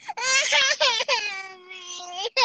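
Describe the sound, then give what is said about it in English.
A toddler girl cries in a few high, wailing sobs, broken by short catches of breath. One long, held wail runs through the middle before a final short cry. “I'm sorry, man. I got a toddler right here.”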